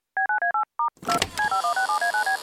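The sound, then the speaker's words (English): Touch-tone beeps of a telephone number being dialed: five crisp tones, then a short noisy clatter, then a rapid, even string of many more beeps. “Just gotta dial his number.”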